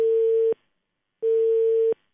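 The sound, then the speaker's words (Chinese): Telephone call tone on an unconnected call to an office line of a city public transport affairs center in Changsha: two long, steady, mid-pitched beeps of about half a second each, separated by a gap of silence. “目前呢电话暂时是没有接通哈，那我们继续拨打一下长沙市城市公共交通事务中心办公室的电话吧”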